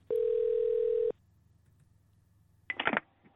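Telephone line tones as a call is transferred to a motel operator: one steady, even tone lasting about a second, a pause of near silence, then a short burst of warbling electronic tones.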